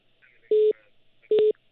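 Two telephone tones on a radio call-in line: short, steady electronic beeps of the same pitch, evenly spaced with a quiet gap between them, over a faint background hiss.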